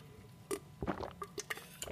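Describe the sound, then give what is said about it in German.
Someone takes a sip of a drink, making a short run of soft, wet slurping and swallowing noises in an irregular rhythm. “Ich trinke jetzt noch einen Schluck.”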